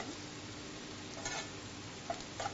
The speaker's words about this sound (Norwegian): Så vi lige sorterer dem af sammen med løgne lidt. Okay, så. Lige få dem lidt ned i smøret.